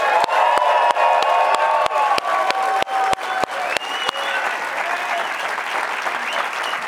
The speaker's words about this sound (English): We are joined here in Studio C by a full house audience. You guys look and sound really good tonight.